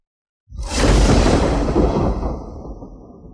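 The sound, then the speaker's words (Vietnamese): Thunder bursts in suddenly and rolls on as a loud, broad rumble that slowly fades over a few seconds. “Tiếng sấm chung quanh truyền đến càng dồn dập”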